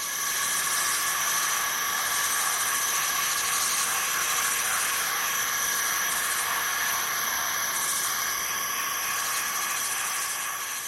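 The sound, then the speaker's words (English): Forest insects calling in a dense chorus, a constant, loud, high-pitched droning made of several layered steady tones. “That first one was a symphony of insects in a forest, doing their noisy best to create a cacophony of communication and contrasting calls.”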